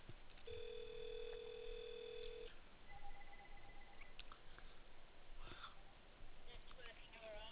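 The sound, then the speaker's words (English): Telephone tones sound while a landline number is dialed: one steady tone of about two seconds, then a shorter, fainter tone. Both come over a narrow, muffled phone line with a low hiss behind them. “Let me dial your landline number once and see.”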